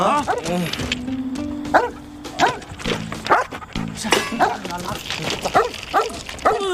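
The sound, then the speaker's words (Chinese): A big black dog barks in a quick series of loud, deep barks with short gaps between them, while people talk excitedly around it. “哎，有狗啊！真的大黑狗吧？”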